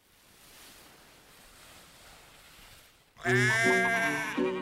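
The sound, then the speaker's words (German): Sheep bleating at a livestock show on a meadow: a long, loud, quavering bleat breaks in suddenly after several seconds of soft, steady hiss. “Die Wiese füllte sich, die Viehschau begann. Schweine, Kühe, Kälber, Schafe, Pferde.”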